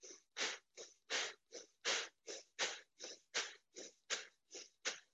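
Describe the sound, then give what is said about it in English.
Bhastrika bellows breathing, forced breaths drawn in and pushed out during yoga practice. A rapid, steady series of many sharp, hissing breath bursts, evenly spaced and alternating in strength, with short silences between them. “That's known as the bellows breath. It's a forced breath in and out.”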